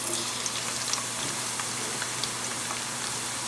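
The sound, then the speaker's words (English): Thin onion slices frying in oil, a faint, steady sizzling hiss sprinkled with small crackles and pops that continues evenly throughout. “make sure that I've got those not very thick slices here, just so that it kind of goes fast. All right, now we're just going to add that slowly to our oil.”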